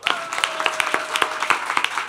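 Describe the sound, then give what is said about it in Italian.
An audience applauds at a live show, dense and steady clapping with crisp individual claps standing out, moderately loud throughout with no voices over it. “Possiamo fare di meglio? E vorrei un applauso”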